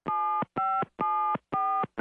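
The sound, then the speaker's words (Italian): A phone number is dialed on a keypad, producing a quick, evenly spaced run of loud electronic tones. Each key press gives a steady two-note beep lasting under half a second, with brief silences between them. “Digitai immediatamente il numero di telefono della ditta Furbix.”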